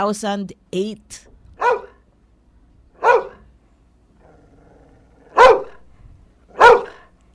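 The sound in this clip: An angry Labrador retriever barks in a series of loud, separate barks with quiet gaps between them, preceded by a few short whining sounds at the start.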